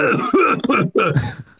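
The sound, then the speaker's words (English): A person coughs into a microphone: two loud, harsh bursts with a throaty, throat-clearing edge, separated by a brief gap, with no talk. “I'm going to press mute and cough and see how it goes.”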